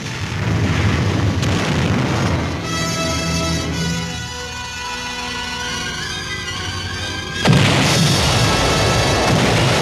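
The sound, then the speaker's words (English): Heavy preparatory artillery fire before amphibious landings on the way to the Philippines, a continuous booming roar with a stretch of sustained tones in the middle before the roar swells again. “First, heavy preparatory fire to soften up the objective.”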